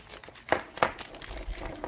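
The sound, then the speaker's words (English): Plastic rustles and clatters as someone rummages through a bag of accessories that come with the red model, including lead extenders, alligator clips and probes. Two sharper crinkles come early, then softer rustling continues. “Oh, let's go through this other bag of whatever goodies you get with the red one.”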